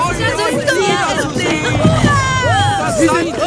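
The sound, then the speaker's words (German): Villagers on a village beach joyfully greeting a rowing boat arriving after a calm crossing, a steady babble of many overlapping, excited voices. “Das Ruderboot erreicht nach ruhiger Überfahrt den Dorfstrand und wird von den Bewohnern freudig begrüßt.”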